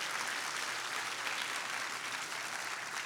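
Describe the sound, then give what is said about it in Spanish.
Sustained applause from a church audience during a bilingual Spanish-English service, a dense, steady roar of many hands clapping at an even loudness throughout, with no voices standing out. “Fuerte ese aplauso a Jesús. Let's give the Lord a loud hand.”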